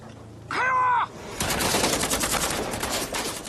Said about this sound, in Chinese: 密集的枪声、手榴弹和美军发射的榴弹爆炸声交织在一起。